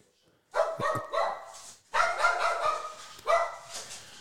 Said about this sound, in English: All right, sorry about that, listeners. We have the dog issue and stuff